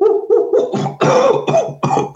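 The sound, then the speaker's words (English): A person imitates a cough, mimicking a supposed Sasquatch coughing in the middle of its call: a few rough, voiced hacking bursts in quick succession, loud and alone. “he started coughing and then he stopped”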